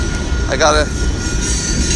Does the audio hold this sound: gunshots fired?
no